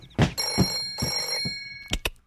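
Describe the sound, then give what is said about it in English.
A clubhouse telephone rings in two loud, steady bell bursts, then a couple of short knocking thumps follow. No voices are heard. “Clubhouse phone? Clubhouse phone? Huh? Oh. Clubhouse phone, I got it.”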